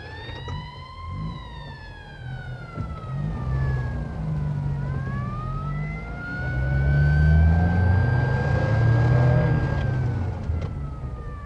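Police car sirens wailing along a street, their pitch sweeping down and then back up over a low vehicle rumble, growing louder toward the middle before easing slightly, with no talk.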